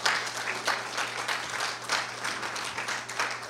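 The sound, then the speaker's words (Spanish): A church audience at a Spanish-language service claps loudly and steadily in praise, a dense, continuous patter of many hands. “Denle un aplauso fuerte al Señor.”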